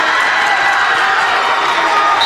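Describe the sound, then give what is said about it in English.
Crowd cheering at a basketball game as a seldom-used substitute enters, a steady, loud roar of voices and applause sustained for the whole moment. “That's who they were cheering for. They wanted to see Jason Prado.”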